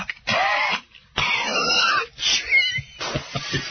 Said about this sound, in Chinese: 咳嗽的不是别人，是老将军黄忠。